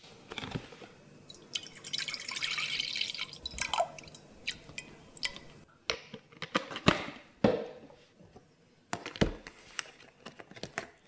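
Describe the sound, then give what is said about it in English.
Whipping cream and milk being poured into a pot, a faint, steady liquid wash that gives way to scattered drips, taps and light clinks against the pot. “So the recipe calls for 100 ml of whipping cream and 550 ml of milk. So let's put that in a pot.”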